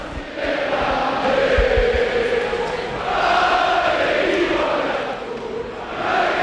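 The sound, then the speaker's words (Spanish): A football stadium crowd in Vitoria celebrates a 1-0 home win over Barcelona, a loud sustained roar of cheering and chanting that swells and eases in waves throughout. “Pues este es el sonido de la esperanza en Vitoria después de una victoria épica ante el Barça por 1-0.”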